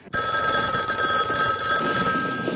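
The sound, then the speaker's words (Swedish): A telephone bell rings in a house. The loud, continuous, shrill ring starts abruptly and carries on unbroken to the end. “Your phone's ringing.”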